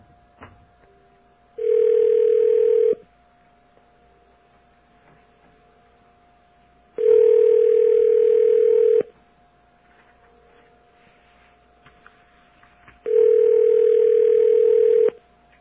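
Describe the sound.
Three long ringback tones of an outgoing phone call, each a steady buzzing tone lasting one to two seconds, separated by quiet gaps of about four seconds.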